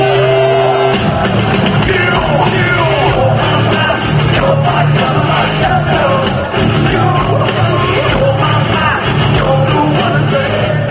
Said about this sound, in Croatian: Sjajno pevate Beograde, odgovorio Hetfield iz Metalike beogradskoj publici sinoć na koncertu na Ušću.